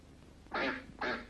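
A duck quacks twice, two short, raspy, fairly loud calls separated by a brief pause.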